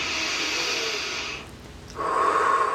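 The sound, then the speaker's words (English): A deep breath during a guided breathing exercise: two long, airy breath sounds separated by a short pause, the second one louder and rushier, heard alone without talk. “Deep breath.”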